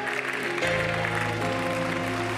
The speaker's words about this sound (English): Clap for these people right now.